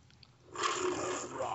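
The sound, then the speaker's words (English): The MGM logo lion roars: after half a second of near quiet, a loud, rough, sustained roar swells in and holds steady to the end. “Yeah, that MGM lion, man. It's that same lion again.”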